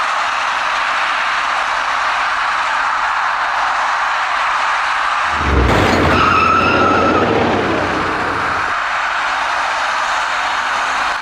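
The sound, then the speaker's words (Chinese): Two white cars collide on a highway ramp bridge as one merges hastily to the left into the main road. Steady traffic noise gives way midway to a loud burst with a low thud and a screeching tone that lasts a few seconds before fading. “两辆白色小客在路面上发生了相撞事故。”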